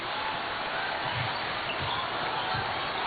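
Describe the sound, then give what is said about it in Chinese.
A basketball is dribbled up the court by the Czech team in a game against China. About three faint, low thumps of the ball come through steady crowd noise. “捷克队运球到前场，中国队这是一个二三联防”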